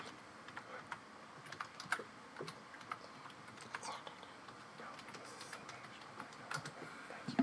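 Typing on a computer keyboard: many quick, uneven key clicks in short runs with brief pauses between, light and fairly faint against a quiet background.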